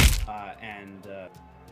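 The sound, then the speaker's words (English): A single sharp crack of a punch to the nose in a tabletop fantasy game fight scene opens, loud and short, followed by a sustained tonal sound. “Get him right in the nose. You can hear another audible crack.”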